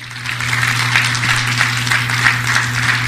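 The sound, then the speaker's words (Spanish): Applause from a church audience during a Spanish-language sermon: a steady, moderately loud patter of many hands clapping over a low electrical hum, holding fairly even throughout. “Denle un aplauso al Rey por eso.”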